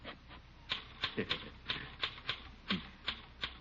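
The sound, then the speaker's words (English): Mechanical typewriter keys strike in an irregular run of about ten crisp, faint clacks with short gaps as a letter is typed. “Here, let me type that letter for you.”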